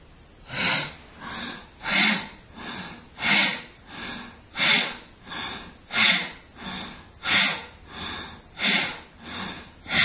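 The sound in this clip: Deep, slow breathing in and out during a guided pranayama-style breathing exercise, a steady series of many long, airy breaths with a noisy, rushing quality, alternating inhale and exhale in an even rhythm with no talking.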